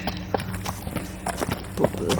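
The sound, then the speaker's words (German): Horse hooves clip-clopping as one of the horses approaches during a carnival procession: a few sharp hoofbeats among voices and crowd noise. “Es kommt gerade so eines von den Pferden.”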